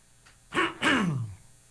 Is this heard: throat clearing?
yes